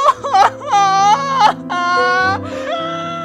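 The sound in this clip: A woman crying in loud, exaggerated wails: drawn-out, high sobbing cries broken by brief catches of breath, with a steady low tone running underneath.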